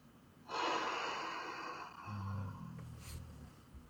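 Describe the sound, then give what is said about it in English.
A long, deep inhaled breath during a guided affirmation exercise, a steady breathy rush lasting about two seconds, followed by a lower, softer breathing sound that trails off. “Deep breath.”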